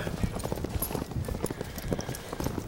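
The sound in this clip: Hoofbeats of cadets' horses galloping in a cavalry drill scene from a film, heard as a rapid, dense, irregular drumming of many hooves that continues evenly throughout at a fairly low level.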